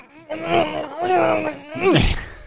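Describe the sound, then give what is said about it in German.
A man's voice imitates the muffled groans of a gagged, tied-up man lying on the floor: two drawn-out, strained moans with wavering pitch, the second one sliding sharply downward. “da liegt einer geknebelt, gefesselt auf dem Boden. Der Jeff. So, und macht auch so eine Geräusche. So.”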